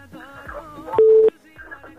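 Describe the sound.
A phone call connects on a radio call-in show: a single steady electronic beep sounds between stretches of talking voices.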